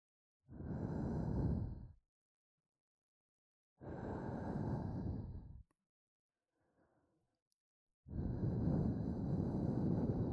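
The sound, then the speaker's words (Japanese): Breath blown steadily onto something in three long, airy, breathy blows, each lasting about one to two seconds with quiet pauses between them and a faint rustle in the second gap; soft overall. “こうして、息を吹きかけるの。”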